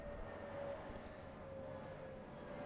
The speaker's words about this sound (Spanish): El destino, este avión que pasa encima de nosotros en este momento.